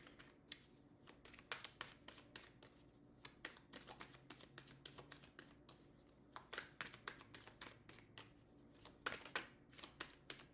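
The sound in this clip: Tarot cards are shuffled by hand for a reading, giving many quiet, rapid riffling snaps and soft taps in an uneven, continuous run.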